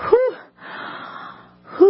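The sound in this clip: A voice imitates breathless huffing and puffing after climbing stairs: a sharp gasp, a long wheezy exhale, then another gasp, loud and without words.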